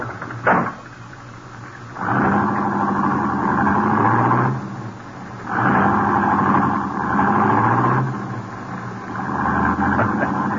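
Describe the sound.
A car engine starting and driving away in an old radio drama: a sharp thump, then three long, loud revving surges with lower steady running between them, and no voices.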